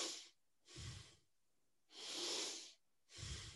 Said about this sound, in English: so it's not really aggressive, but it is a full breath, and I'm really focusing on the sequence, like belly, chest,